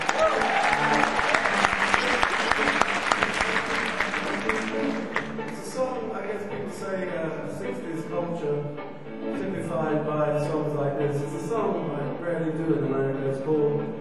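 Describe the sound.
Audience applause for a performer named Bill: loud, dense clapping for about five seconds, then a band starts playing and a singer comes in as the clapping fades.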